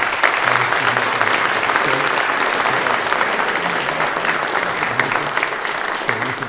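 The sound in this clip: A church audience at Salem Reformed Church applauds to welcome new members, a dense, steady clapping that holds at an even level throughout.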